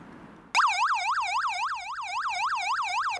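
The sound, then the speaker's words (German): Emergency vehicle yelp siren, a special signal telling the driver ahead to stop, sounds alone as a loud, rapid, rising-and-falling wail that switches on abruptly after a brief quiet stretch and repeats in an even fast cycle. “Es hat nicht das Martinshorn, sondern so ein spezielles Signal, dass derjenige, der vor uns fährt, halt anhalten soll. Und das hört sich so an.”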